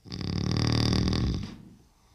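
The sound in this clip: A man snoring in his sleep gives one long, rasping, throaty snore with a buzzing tone, loud and alone, then fades into near silence.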